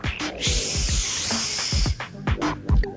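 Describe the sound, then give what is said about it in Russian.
A creature hisses after pushing its snout through a broken window: a loud, broad, breathy hiss lasting about a second and a half, surrounded by scattered sharp knocks and rustles. “От этого шипения у Магды помутилось в глазах”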